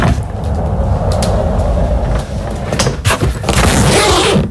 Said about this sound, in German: Ja, das ist dein Rollkoffer. Du bist mit deinem Koffer entlang gerollt und hast ihn dann aufgemacht.